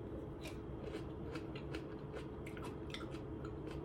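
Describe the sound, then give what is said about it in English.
Someone tastes new kimchi, with soft wet crunches and chewing bites repeating in an irregular rhythm over a steady low hum. The eating is quiet and no one speaks over it. “Sh- I got this new kimchi today and I want to try it. So let's see, taste test.”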